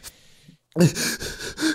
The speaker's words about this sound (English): He teaches acting, and he'll talk about how to be scared in a scene or some shit like that. And it'll be like, it's not that hard. He was like, you just breathe. Like you just go like this.